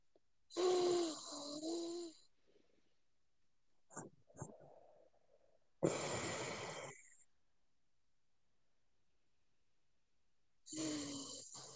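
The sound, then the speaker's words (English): Slow, deep breathing: a few long, loud, breathy inhales and exhales, each lasting over a second, separated by long silences with a couple of faint soft sounds between them. “So let's take some more breaths.”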